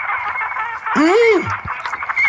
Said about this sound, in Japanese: けど、この鳥の鳴き声が。